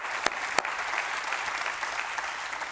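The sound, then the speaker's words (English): A church audience applauding during a morning service, a dense steady wash of many hands clapping with a couple of sharper claps standing out early, sustained throughout without speech. “Would you put your hands together? Would you welcome all of our campuses and all those people that are joining us online this morning?”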